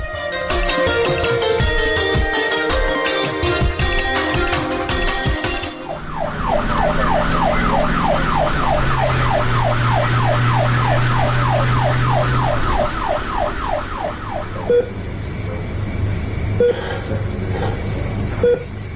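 A loud ambulance siren cycles in rapid, repeating rising and falling wails for several seconds over steady background noise.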